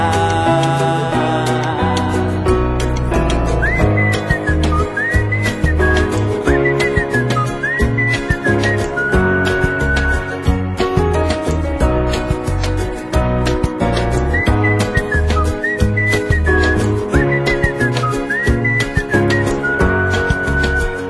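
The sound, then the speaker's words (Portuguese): A person whistles a melody in two short passages over a full instrumental backing in a Portuguese-language song, the whistled line sitting high and clear above the steady, loud music. “E quem diria que esta alegria me pusesse logo, logo a assobiar.”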